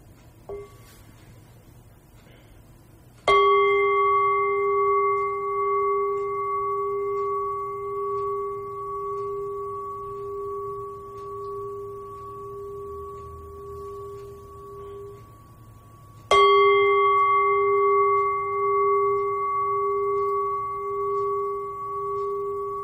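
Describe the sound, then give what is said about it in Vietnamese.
A Buddhist bell, rung to calm the mind before study, is struck twice. Each stroke gives a sharp attack and then a long, sustained, steady ringing tone, with the second strike coming about thirteen seconds after the first. “đại chúng nghe tiếng chuông để tĩnh tâm trước khi vào học. Xin mời quý vị lắng nghe.”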